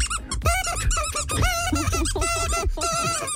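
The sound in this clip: A dog's squeaky toy squeezed over and over in a rapid, continuous run of loud, high squeaks with no pauses between bursts.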